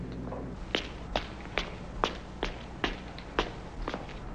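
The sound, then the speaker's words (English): Footsteps approach a house and climb its steps: a steady series of sharp, evenly spaced footfalls, fairly faint over a low background hum, with no talking. “I'm approaching house now. There are 8 steps.”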